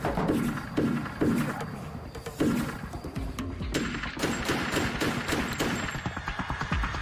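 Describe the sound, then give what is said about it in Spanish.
Rapid, overlapping bursts of gunfire during a home invasion, with intruders and a resident shooting at each other. The shots come loud and dense throughout, without a pause between volleys. “Los intrusos lo oyeron moverse en la casa y abrieron fuego. El residente devolvió el fuego, obligando a los atacantes a retirarse.”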